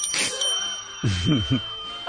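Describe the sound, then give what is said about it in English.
A bell rings at the start as a celebratory cue in a birthday segment, a bright, short ring whose high tone lingers, followed by people talking. “She deserves a bell.”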